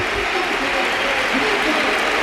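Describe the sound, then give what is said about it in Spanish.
Football stadium crowd rising to applaud a departing substituted player during a match: a broad, steady wall of clapping and crowd noise that stays loud throughout. “Se pone en pie, se pone en pie el Ramón Sánchez Pizjuán para despedir a Lamine.”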